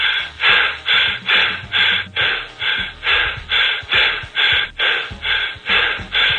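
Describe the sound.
Heavy, rapid breathing from a caller on a telephone line: many strong, rhythmic puffs of air at an even pace, each a loud gasp with a narrow, tinny phone quality, with no words.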